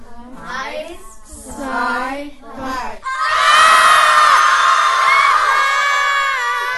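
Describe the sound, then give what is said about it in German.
A crowd of children screams as loud as they can during a loudness demonstration, a sudden sustained roar of shrill shrieks and whoops after an adult speaks briefly. “So, und wenn ihr jetzt ganz laut seid, dürfen die das mal einmal laut sein? So laut ihr könnt schreien, was immer.”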